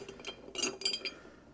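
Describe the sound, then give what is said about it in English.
Soft clinks of a stirrer against a glass while a Godfather cocktail is stirred: a few faint, bright taps in an uneven rhythm, quiet and with no other sound. “So then we're just going to basically take this, and we're going to just put a little bit of stir to it.”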